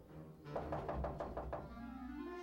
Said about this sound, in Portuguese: Mas quem será que está batendo?